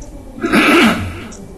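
A single throat clearing, one rough, gravelly vocal rasp lasting under a second and heard alone with no speech around it.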